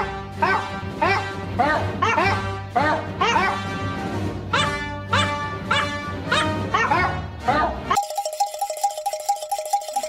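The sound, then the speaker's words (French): A dog barks repeatedly in a fast, bouncy series of many short, bright yaps that keep a lively rhythm, then the barking stops abruptly and a short electronic jingle with a repeating tone takes over. “ça, c'est un bon chien-chien, ça.”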